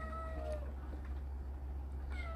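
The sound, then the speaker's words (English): An agitated house cat meows twice, faintly. Each meow is drawn out, and the first slides down in pitch. A pause separates them, and a steady low hum runs underneath. “Also, my cat is going crazy.”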